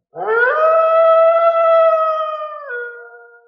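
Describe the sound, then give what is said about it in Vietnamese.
A long howling cry, like a wolf's howl blended with birdsong, sounding across mountains: a single loud, harmonic tone that rises at the start, holds steady, then drops slightly and fades out. “Đột nhiên một tiếng như chim hót lại giống như sói tru truyền ra, chấn động cả dãy núi.”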